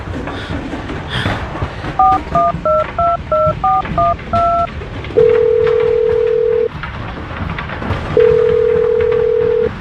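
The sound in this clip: Telephone keypad dialing tones beep in a quick, even run of many short notes. Two long, steady ringing tones follow as an urgent call is placed.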